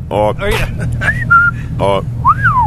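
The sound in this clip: A person whistles a few short tonal notes, one held steady and another sliding up and down, alternating with bursts of people talking.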